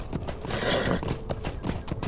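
Horse hooves clop in a video game as the rider moves through a misty landscape. Many quick, regular hoof strikes form a steady rhythm, with a whinny mixed in.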